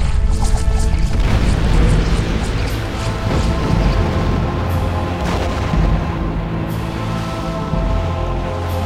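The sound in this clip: A swirling smoke creature explodes inside a room, phasing through a cell wall before it blows. The sound is a loud, dense roar of crashing and booming that runs unbroken for about nine seconds, with sharper cracks scattered through it.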